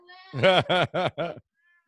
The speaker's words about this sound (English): She's a cat.